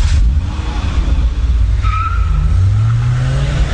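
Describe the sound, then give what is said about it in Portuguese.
A red Ford Escort squeals its tires as it drives off: loud engine roar with a sharp tire screech, and the engine's pitch climbs steadily in the last second or so as it accelerates away. “Ei, quem é o cara do escorte vermelho que acabou de sair daqui cantando pneu?”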